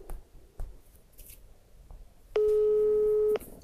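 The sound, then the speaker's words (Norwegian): A telephone ringback tone on an outgoing call: one steady, mid-pitched electronic tone lasting about a second, set against a faint hiss with no voices during it. “Da skal vi ringe eh, Cato.”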